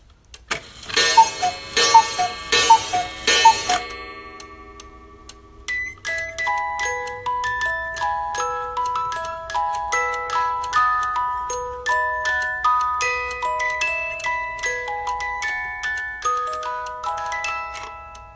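A mechanical clock striking the hour gives a few loud, clattering mechanical clicks, then a long run of bright, bell-like chime notes playing a steady, stepping melody that continues to the end.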